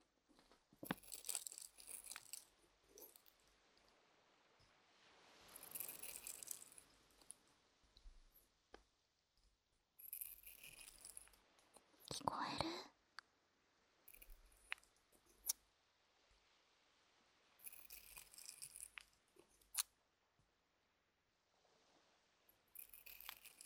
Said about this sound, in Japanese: ちなみにね、紙を切る音よいしょできるかな。こうやって